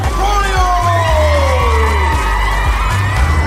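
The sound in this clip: A school crowd cheers in a gym as the basketball team captain runs in through a tunnel of dancers, with loud whoops and yells sliding in pitch over a continuous roar.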